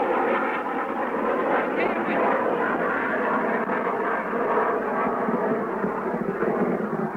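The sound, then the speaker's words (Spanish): An enemy airplane flies over a war zone where an airport is under bombardment, its engine a steady, loud droning roar that holds level and unbroken throughout. “Misiles nuestros se dirigen en busca del avión enemigo.”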